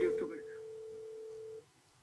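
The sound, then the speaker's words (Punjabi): A phone line tone after a call drops: one steady mid-pitched tone holds for about one and a half seconds, with a brief voice over its start, then the line falls quiet. “Disconnect ਹੋ ਗਈ ਸੀ ਕਾਲ ਦੁਬਾਰਾ”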